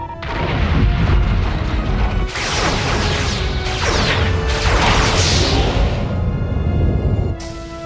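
A Star Trek: The Next Generation starship under weapons fire: loud, dense crashing and booming impacts with whooshing bursts layered over a constant heavy rumble, lasting several seconds and then cutting off sharply.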